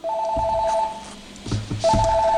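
A telephone rings in two electronic, trilling bursts separated by a gap. Low knocks and thuds fall between the rings.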